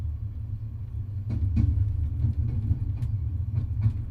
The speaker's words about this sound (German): Ein Zug unterwegs. Endlich mal was Friedliches. Nachtfahrt mit dem TGV. Von Marseille nach Straßburg.